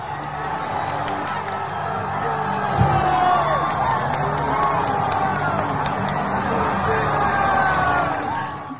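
Baseball fan cheering and yelling at an Atlanta Braves game in a stadium, a dense, loud crowd roar with whoops and shouts rising within it, sustained throughout.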